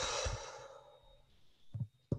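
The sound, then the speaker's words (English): A single soft exhale, like a sigh, during a breathing exercise, fading out within about a second, then faint quiet with a couple of brief low knocks. “So breathe in. Twice, breathe out.”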